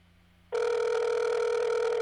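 A telephone ringback tone sounds on an outgoing call. After a short, near-silent hush, a loud, steady electronic tone starts abruptly and holds unbroken to the end.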